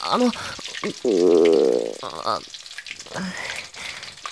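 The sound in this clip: Food sizzles as it fries in oil in a kitchen during Japanese-style cooking, with voices and tonal sounds layered over the hiss.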